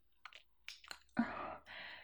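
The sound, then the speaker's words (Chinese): Slow eating of a big sausage: a few soft, wet mouth clicks and squishes, then a longer, moist chewing sound, all very quiet and close. “这大香肠啊，真是太美味了。这么好的东西啊，我可要慢慢品尝。”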